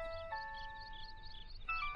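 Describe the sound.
A mobile phone ringtone plays: an electronic melody of sustained, clear tones that shift pitch a few times. It sounds steady and moderate in level, with no talking over it.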